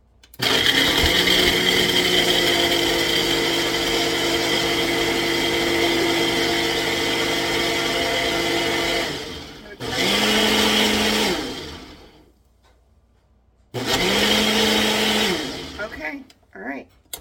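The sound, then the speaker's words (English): A blender whirs loudly while mixing a coffee drink made from a powdered mix. It runs in one long continuous burst, then stops and restarts twice for shorter runs, and each restart spins up in pitch. “I think I actually need to blend it some more, so hold on.”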